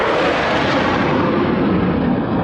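A military demonstration jet passes low overhead at an air show, giving a loud, dense roar that fills the whole clip with little change in level. The brightest upper hiss thins slightly near the end.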